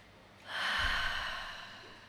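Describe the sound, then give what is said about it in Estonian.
A single breath pushed out through the mouth during a guided breathing exercise, soft and airy, swelling quickly, then thinning away slowly; no talking alongside. “ja siis me hingame ei, suu kaudu, suu kaudu”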